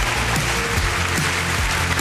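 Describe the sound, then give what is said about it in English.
Applause and a standing ovation at the BAFTAs in London as Michael J. Fox is wheeled onto the stage. Dense, continuous clapping and crowd noise fill the whole moment at a steady level. “Michael J. Fox is wheeled onto the stage to a rousing standing ovation.”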